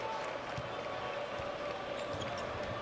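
Basketball dribbled on the court during a Maryland–Wisconsin college game: a few dull, evenly spaced bounces thud under a steady wash of background noise.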